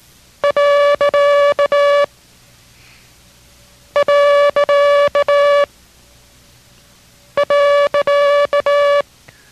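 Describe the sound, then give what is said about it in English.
Morse code period sent three times as pitched tone groups: three separate bursts, each a quick run of short and long steady beeps at one clear pitch, with silent gaps between the groups and no talking. “First will be the period three times. Copy each time, but concentrate on the sound each time.”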